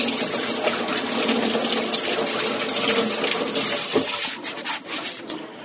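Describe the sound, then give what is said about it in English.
Water runs from a tap during rinsing, a loud, steady rushing stream. Near the end a knock is heard, and then the flow turns uneven and splashy. “Back to the rinsing.”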